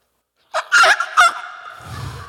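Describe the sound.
A person's breathless voice imitates a wild turkey call during a hunt, giving three short, strained, nasal yelping bursts, followed by a faint low rumbling noise.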